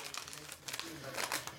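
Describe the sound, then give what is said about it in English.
Paper crinkling and rustling as a Christmas present is unwrapped, crisp crackling bursts that come and go while people talk. “That's your Christmas present. I'm terrified. We're opening it live on the microphone.”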